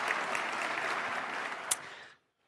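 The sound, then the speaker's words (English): An audience applauds to welcome a speaker at a talk on AI, a steady wash of clapping that holds even and then drops away to silence. “Please join me in giving a warm welcome to Owen Cotton Barrett.”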